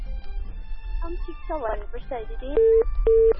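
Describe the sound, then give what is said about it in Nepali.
A radio phone-in call disconnects: a caller's voice on the phone line is cut off, followed by two short, steady, loud beeps of a disconnect tone. “उहाँको phone disconnect भएको छ”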